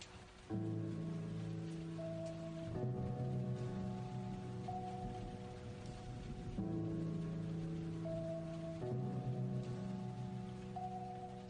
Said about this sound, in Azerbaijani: Ne ağır yağış ya.